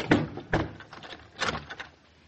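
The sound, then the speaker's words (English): A front door is checked and locked, giving a few clunks and rattles of the door and its lock separated by short pauses. “I want to make sure this front door is locked.”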